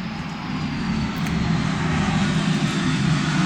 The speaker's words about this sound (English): there's another plane.